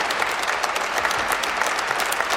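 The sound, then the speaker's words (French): Sustained applause from a Mass audience at Lourdes, clapping for hospital volunteers of a Basque-Béarnaise pilgrimage hospitality group; a dense, even patter of many hands that holds steady throughout. “Les hospitaliers se tournent maintenant vers les fidèles qui les applaudissent.”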